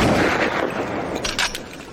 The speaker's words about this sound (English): As the claw snaps shut, it fires a blast of bubbles.